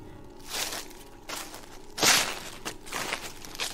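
Footsteps sound outside a graveyard: a few slow, crunchy steps fall in a steady rhythm, with one step landing louder than the rest.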